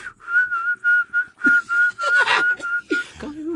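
A person whistles the Heart Sutra chant as a run of clear, short notes held on nearly one pitch, spaced in a steady rhythm with brief gaps between them.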